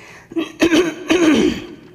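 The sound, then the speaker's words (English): A person clears a froggy throat in a few short, raspy bursts, the last one longest and most rattling, before it trails off into quiet. “Seems like every time I start talking, I get this frog in my throat.”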